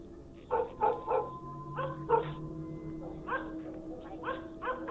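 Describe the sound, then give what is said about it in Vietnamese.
A pack of dogs barks at night in a village of stilt houses: many sharp barks in clustered bursts, some overlapping, over a steady low hum. “Từ trên những ngôi nhà sàn, đàn chó ngửi được mùi nguy hiểm, nhất loạt đứng lên cắn hóng.”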